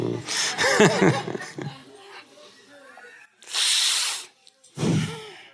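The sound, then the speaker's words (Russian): A voice talks, then a sharp hissing inhale through clenched teeth lasting under a second demonstrates a breathing exercise, followed by a shorter breathy exhale through the nostrils. “То есть делается вдох через сжатые зубы и выдох через, через ноздри”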